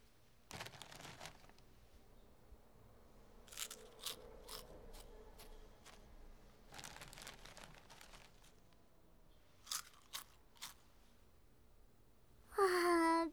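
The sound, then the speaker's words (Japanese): Potato chips are eaten in faint, crisp crunches and crinkles, arriving in a few short clusters separated by quieter gaps. “あ、ほらポテチ食べよう。ポテチ、”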